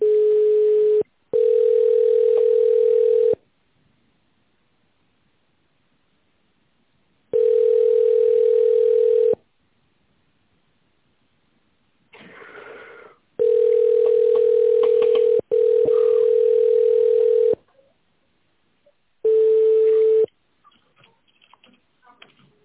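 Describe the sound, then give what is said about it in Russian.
Telephone ringback tone while waiting for a call to connect: several long, steady, mid-pitched beeps, each lasting one to two seconds, separated by irregular silent gaps. The tone is loud and clear. “целях улучшения обслуживания разговор может быть записан. Пожалуйста, дождитесь соединения.”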